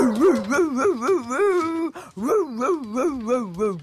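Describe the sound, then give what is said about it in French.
A voice imitates a three-legged farm dog barking furiously toward the street, using loud, drawn-out, wavering yelps and whines. The yelps come in two rhythmic runs separated by a brief break. “Le chien aboie de toutes ses forces en direction de la rue.”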